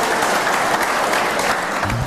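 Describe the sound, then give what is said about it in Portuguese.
A church audience applauding: dense, even clapping from many hands, steady and loud for about two seconds. “Então aplaudam ao Senhor em nome de Jesus.”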